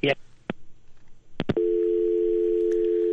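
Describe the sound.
After a telephone call is cut off, a few sharp clicks give way to a loud, continuous, unwavering dial tone.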